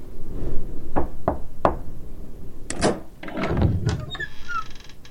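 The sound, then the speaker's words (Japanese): Three sharp knocks on a door in quick succession, followed by a short pause and then a burst of louder clattering and scraping noises, with faint hiss in the background. “この扉をノックすればいいのですか？”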